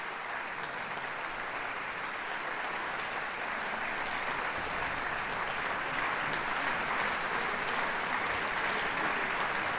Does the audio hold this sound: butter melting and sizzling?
no